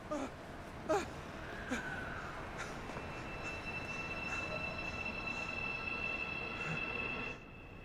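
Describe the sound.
A subway train pulls out of a station as its doors close. Two brief knocks sound early on, then a steady rail rumble with a high metallic whine builds and holds before dropping off near the end.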